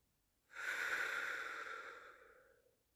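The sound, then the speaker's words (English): A single long, airy breath swells quickly, then fades gradually over about two seconds. It is heard alone, soft and breathy with no voice. “And take a nice, big breath in with me. Let it out.”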